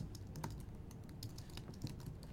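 Typing on a computer keyboard: many quick, faint keystroke clicks in uneven bursts over a low background hum, with no voices.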